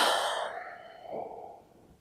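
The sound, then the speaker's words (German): Deep breathing in and out during a relaxation exercise: a broad, airy breath that fades gradually, followed by a softer second breath, quiet with no talk. “Und atme jetzt mal tiefer ein und aus.”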